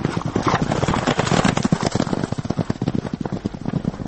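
A forest ranger's swift horse clip-clops near Qurghonteppa, Tajikistan, with many crisp hoofbeats in a quick, steady trotting rhythm, loud and continuous.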